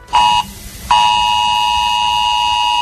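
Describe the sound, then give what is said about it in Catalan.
A civil protection emergency alert tone sounds from a mobile phone during a test of a new warning system in the Barcelona area. A loud, harsh buzzing tone gives one short burst, pauses briefly, then holds steady to the end. “És el so de l'alarma que activa Protecció Civil en casos d'emergència.”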